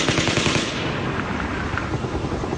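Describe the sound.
A burst of automatic gunfire recorded up close at the Mandalay, with the shooter above the camera: a dense, rapid rattle of shots that stays loud and harsh for the whole stretch.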